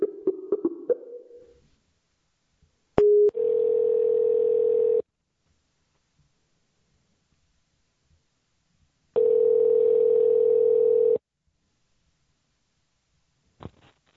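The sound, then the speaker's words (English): Telephone dialing tones and ringback from a call placed to a shop: a brief burst of short dial blips, then two steady ringing tones of about two seconds each, separated by several seconds of silence, with a faint click near the end. “Let's give them a call and see what we can. Hold on. All right. Dialing GhostMart now.”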